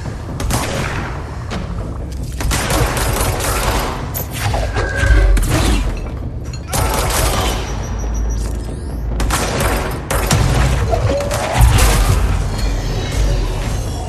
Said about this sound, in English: you also have to pull up things psychically and throw them at people, like so.